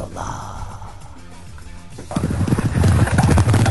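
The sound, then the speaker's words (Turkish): Horses clip-clopping: faint at first, then a rapid, loud, even rhythm of hoofbeats that fills the second half. “Hayır, atlar sana geldi.”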